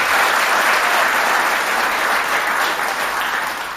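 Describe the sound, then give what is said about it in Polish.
An audience applauds at a live concert with dense, continuous clapping that holds steady throughout and eases slightly at the end. “Nie możecie tak dużo klaskać, bo nie zdążymy z piosenkami w tym secie.”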